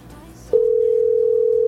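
A telephone ring tone sounds on a call to a radio listener: after a quiet, murmuring lead-in, one steady, mid-pitched tone starts abruptly and holds unbroken to the end.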